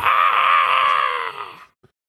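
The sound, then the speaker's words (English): A human voice imitates a blood-curdling shriek rising from the trees below. The cry is loud, high and slightly wavering, held for over a second and a half before fading out. “Just as Karen starts to get her sea legs, a blood-curdling shriek can be heard from the trees below. Kind of like”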